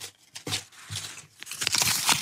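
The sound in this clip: Papery rustling and crinkling as a question slip is drawn from a pile, with a few soft crackles early on and a denser, louder burst of crinkles toward the end.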